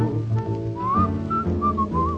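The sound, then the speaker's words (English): A person whistles a tune in short melodic phrases with gliding notes, clear and bright over a soft musical accompaniment. “I'm whistling, looking at a lovely moon.”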